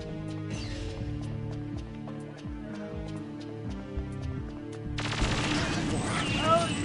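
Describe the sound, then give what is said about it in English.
Video game gunfire rattles out in many rapid, sharp shots over steady tonal background music. The shots grow louder and denser in the final seconds. “Well, I've just started shooting, so it's too late now.”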